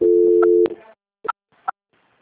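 A telephone transfer tone sounds as a call is passed to another line: a steady, low, buzzy tone for about two-thirds of a second, cut off by a click, then a couple of brief, faint blips.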